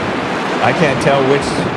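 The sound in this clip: Ocean waves play from a video as a loud, broad, steady hiss of surf that swells slightly in places and fills the whole stretch.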